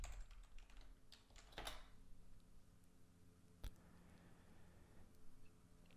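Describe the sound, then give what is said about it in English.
A password is typed on a computer keyboard, with a run of soft, quick key clicks in an uneven rhythm, very faint and alone with no talking. “So I'm going to click on my account. And I'll put my password in.”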